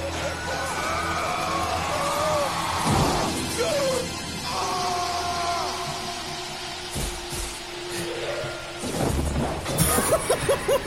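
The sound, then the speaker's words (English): Heavy crashes and thuds as one wrestler delivers a double axe handle off a high stage and another smashes through the ring. Several impacts stand out over a dense, busy background that includes voices. “delivering the double axe handle off the sort of high up stage”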